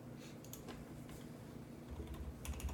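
Typing on a computer keyboard during a tabletop role-playing game session: a faint, steady run of quick, soft key clicks with no voices.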